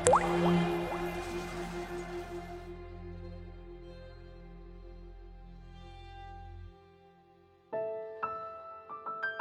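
Warm, thick blood dripping down a man's neck and face. A few wet drips sound over a low sustained hum that fades and cuts off, and then a few sharper drips return near the end.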